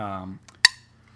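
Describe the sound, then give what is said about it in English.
A drink can cracks open with a single sharp pop and a brief hiss, right after a short voiced sound, then the room goes quiet. “That was an interesting crack of the can there.”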